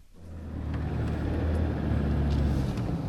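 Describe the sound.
A car drives along a forest track into a logging area. Its engine makes a low, steady rumble that swells within the first half second and then holds as a continuous drone, with no talking.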